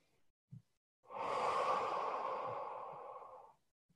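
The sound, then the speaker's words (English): A long, breathy exhale lasting about two and a half seconds during a relaxing deep-breathing exercise, preceded by a brief faint breath sound, soft and airy and heard alone. “Take a nice deep breath in and exhale.”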